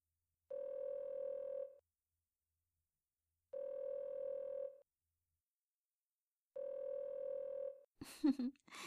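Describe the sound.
Ringback tone of an outgoing phone call: three long, buzzy, steady mid-pitched tones, evenly spaced with equal silences between them, followed by a short burst of noise at the end.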